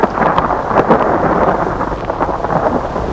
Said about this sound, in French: L'orage qui se lève.